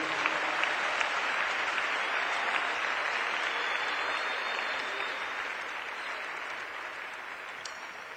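Sustained audience applause, a dense even wash of many hands clapping that carries steadily throughout and fades slightly toward the end.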